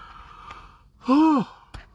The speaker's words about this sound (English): Oh, sorry, y'all know how I yawn.